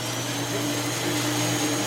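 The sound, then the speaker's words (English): A shoe-scrubbing machine at a gravitational wave observatory gives off a steady motorized whir, like a vacuum cleaner, with a low humming drone underneath. The sound holds at an even, fairly loud level with no breaks. “So this is the sound of a shoe scrubbing machine at the Laser Interferometer Gravitational Wave Observatory.”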